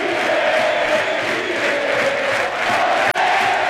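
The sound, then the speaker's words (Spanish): Crowd roars and cheers at a tennis match, a loud, sustained wall of voices with shouts that holds steady throughout and dips for an instant near the end. “Excepcional ahora la reacción del público. Este inflador anímico necesitaba el equipo antes.”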